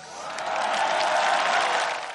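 Applause and cheering from an audience celebrating Croatia's accession to the EU form a dense, steady wash of clapping that holds at a loud, even level throughout, with no pauses or clear individual claps.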